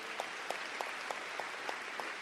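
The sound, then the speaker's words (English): Applause for a mayor, a county executive and state legislators at a civic gathering: faint, evenly paced claps at a steady rhythm, about three per second, over a soft hiss. “To the mayor, to the county executive, to all my colleagues who are here, who I serve with in Albany, let's give them a round of applause.”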